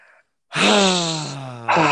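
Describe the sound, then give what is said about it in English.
A deep breath let out together as a long, loud voiced sigh with a groaning tone, holding steady and drifting slightly lower, after a brief faint sound and a short silence. “Let's all take a deep breath together as Americans.”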